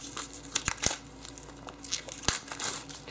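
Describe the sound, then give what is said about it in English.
Packaging around a printed user's manual is torn open and crinkled, a faint, rustling crackle broken by a few sharp snaps and rips. “And finally, we have an actual hard copy of the user's manual in the box. And we take that open, so let's rip that open.”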